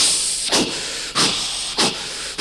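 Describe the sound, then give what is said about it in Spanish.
A labouring steam locomotive gives three loud, evenly spaced chuffs of steam over a constant background hiss. “La locomotora apenas podía.”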